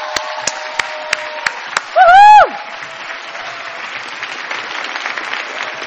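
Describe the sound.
Audience applause for a speaker coming on stage: a few separate claps, then a high, sweeping whoop, then sustained, dense clapping from the crowd.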